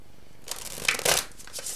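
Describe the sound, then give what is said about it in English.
Shuffling of Witch's Tarot cards: a few brief, papery riffling bursts, fairly faint, with no talk. “So let's go ahead and get some cards from the Witch's Tarot.”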